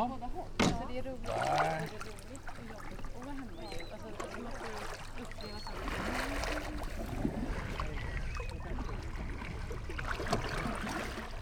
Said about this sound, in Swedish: Och nu sitter du i en kajak här och alldeles intill bryggan och har paddlat ett litet varv här.